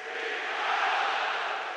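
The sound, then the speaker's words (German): A football crowd roars in the Easy Credit Stadion late in a match, with the home side leading 3-0 and three minutes left. The roar is dense and steady, swelling slightly in the middle, with no talk over it. “Wie ein Orkan schallt es hier durchs Easy Credit Stadion.”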